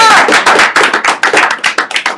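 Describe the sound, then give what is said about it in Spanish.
A small audience at a comic shop event applauds with dense, rapid hand claps. The clapping is loud and continuous and keeps a crisp, crackling texture from start to finish. “¡Un aplauso!”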